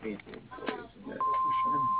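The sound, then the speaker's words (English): An answering machine beep, a single steady high-pitched tone lasting under a second that sounds just after a recorded voice finishes speaking. “If you would like to leave a message, please do so after the beep.”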